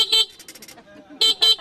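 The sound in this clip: Car horn honking from a vehicle in the oncoming lane, sounding as a few short, bright toots grouped in two loud bursts with quieter tones between them and talk underneath.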